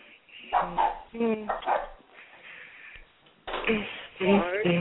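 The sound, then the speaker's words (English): A dog barks in short repeated yips and bow-wows over people talking, with the barking coming in a few separate bursts. “What kind of damn dog y'all got over there?”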